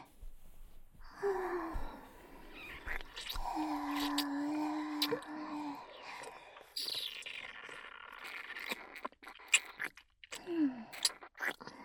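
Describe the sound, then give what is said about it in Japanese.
Soft, wet sucking and nibbling mouth sounds, with scattered clicks and chewing-like noises. Quiet breathy whimpers and sighs run through them at a low, intimate level. “吸い付いて噛んであげる。”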